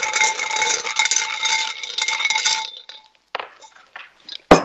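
Numbered lots rattle and clink as they are stirred in a box for a draw at a council meeting, a busy metallic jangle for about three seconds, then a few sparse clicks and a sharp knock at the close.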